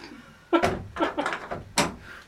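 A door is closed and locked, giving a few sharp knocks, clatters and latch clicks in quick succession at moderate volume.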